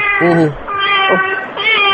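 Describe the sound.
An unneutered cat meows in a few loud, drawn-out, high harmonic cries that run almost back to back, with no other sound around them.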